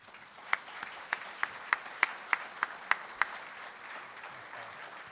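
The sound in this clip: An audience at a Virginia author talk applauds to welcome the speaker. Ten sharp, evenly spaced claps ring out over a softer wash of applause, then fade back into the steady clapping.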